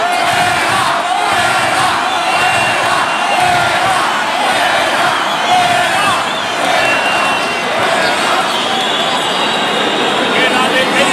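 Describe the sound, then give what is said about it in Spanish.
A bullfight crowd roars in protest at the presidency over the awarding of an ear: a loud, sustained mass of shouting and whistling voices that keeps up without pause for about eleven seconds. “Pero ahora el público protesta a la presidencia.”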